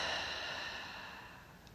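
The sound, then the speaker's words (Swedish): A slow, deep breath during a calming breathing exercise, a soft airy rush that fades gradually over under two seconds, fairly faint and with no talk. “Och ta ett djupt andetag in genom näsan. Fyll upp bröstkorgen och magen med luft. Och släpp långsamt ut andetaget genom munnen.”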